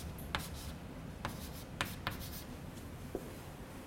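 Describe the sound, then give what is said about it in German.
Handwriting during a physics lecture: faint, continuous scratchy strokes broken by a few sharper ticks, with no talk over it. “Und wenn ich das jetzt ein bisschen anders schreibe,”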